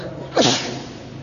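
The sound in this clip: A single sneeze, one short burst of breath and voiced noise that rises sharply and fades within a fraction of a second, fairly loud and alone over a faint steady hiss.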